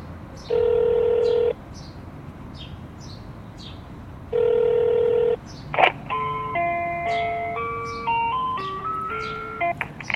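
Telephone keypad tones during a call to a currency exchange company's phone menu: two long, steady electronic tones, then a run of many stepped tone pairs that shift in pitch as keys are pressed.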